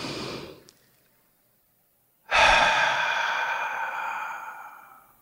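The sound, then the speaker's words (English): A deep breath is drawn, with a short airy breath at the start, then a pause of quiet, then a long, strong sigh-like exhale that slowly fades over about three seconds. “Let's take a deep breath.”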